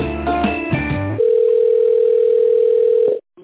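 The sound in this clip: A steady telephone tone plays while a call is being transferred: a single unbroken mid-pitched hum lasting about two seconds that stops abruptly, preceded by a brief tinny jumble of sound over the line.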